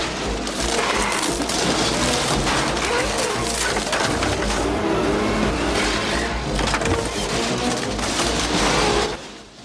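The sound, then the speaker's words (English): Two trucks smashing through the wall of an empty grey depot building: a loud, dense roar of crushing and crashing that continues for about nine seconds, then cuts off. “On opposite sides of the building, the trucks smash through the wall.”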